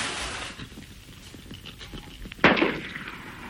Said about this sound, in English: Fire a revolver out of the window. What? Just fire it in the air.